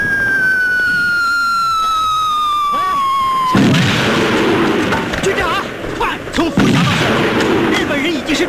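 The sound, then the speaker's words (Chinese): Artillery shelling in a war film during a Japanese attack on a division: a long, loud descending whistle gives way to a heavy blast and then sustained rumbling bursts of fire. “次炮击了，弟兄们伤亡不少。”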